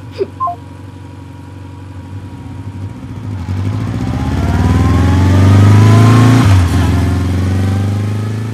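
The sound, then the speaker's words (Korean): A motorbike engine roars as it speeds up, its droning tone climbing steadily in pitch and loudness over several seconds, then dipping briefly before rising again. “엄마라는 누름돌이 가슴을 짓누를 때마다 나는 바이크에 몸을 맡겼다. 속도가 올라갈 때마다 나는 굉음을 질렀고”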